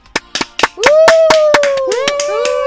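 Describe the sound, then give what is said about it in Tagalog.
Scattered hand claps from a few people in a small game show studio, irregular at first, then going on under a sustained cheering voice. “Oh, konting sounds naman at konting palakpakan.”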